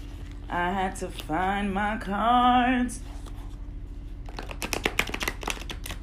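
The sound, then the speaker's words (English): Tarot cards are shuffled in rapid, crisp papery flicks, fairly faint, during the last couple of seconds after a quieter stretch. “I'ma pull a card for today's energy. All right. So, let's see. Sorry, I had to find my cards.”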